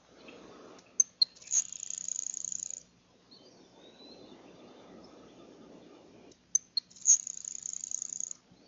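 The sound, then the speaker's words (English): Grasshopper sparrow song: two thin, very high insect-like buzzes, each opened by a few short sharp chips, over a low steady background hiss. “Grasshopper sparrow.”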